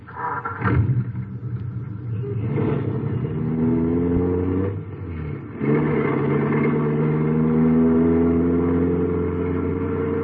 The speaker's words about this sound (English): Well, why don't you drive? Or don't you know how to handle an American car? There is no need to be insolent. Get in. Drive.